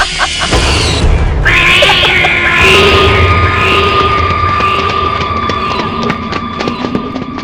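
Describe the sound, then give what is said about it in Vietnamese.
A cat's shrill screech on a bright moonlit night, a drawn-out, piercing cry that rises out of a dense, loud wash of sound and holds steady for several seconds. “Đúng lúc Tần Cẩm định đi vào thì cô nghe thấy một tiếng mèo kêu ré lên.”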